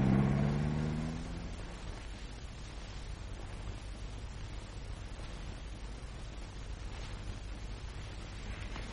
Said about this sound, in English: Now, be a pet and switch on the ignition.